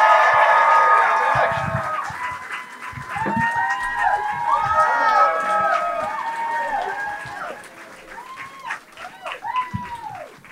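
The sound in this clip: An audience cheers and applauds as a band that has been together for 25 years is introduced, a loud sustained roar of whoops and shouts that thins toward the end into scattered yells.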